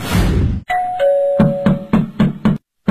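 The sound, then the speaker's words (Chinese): A two-tone doorbell chime at a family home's front door, followed by a quick series of sharp, loud knocks on the door. “这是谁呀？按门铃就别敲门了，他我们家那门可还要呢。”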